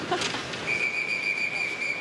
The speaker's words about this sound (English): A lot of whistles there. I'm not sure why. Seems a little excessive.